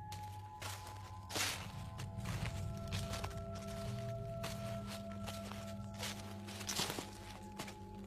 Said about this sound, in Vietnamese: tôi nghe bên tai có tiếng bước chân sột soạt dẫm trên lá cây khô.